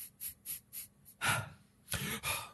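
A person takes a deep breath: a few soft, short breaths, then two louder, longer breathy rushes of air, heard on their own without talk.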